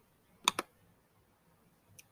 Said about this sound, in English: It's not letting me click it because I always have problems with this stuff.